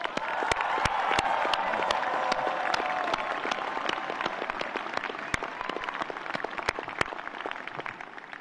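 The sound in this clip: Audience applause at a Stanford graduation ceremony, a dense, sustained wash of clapping with sharp individual claps popping out, continuing steadily throughout.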